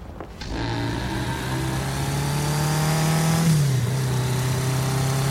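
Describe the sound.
A car engine drones steadily as the car is driven, a mid-pitched hum with a low tonal note that dips briefly in pitch partway through, with no talk.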